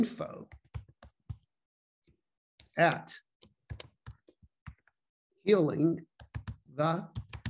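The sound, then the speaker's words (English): Many quick, light keyboard clicks in an irregular rhythm as someone types an email address on a computer keyboard, broken by a few short bursts of voice. “So I'm going to type in the email”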